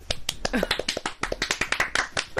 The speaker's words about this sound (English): We're just clapping.